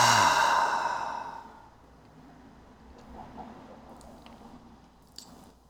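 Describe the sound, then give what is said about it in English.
A deep breath out is released as a long voiced sigh during a guided prayer. It starts loud and fades over about a second and a half, then gives way to near silence with a few faint small sounds. “Take a full deep breath in and a deep breath out.”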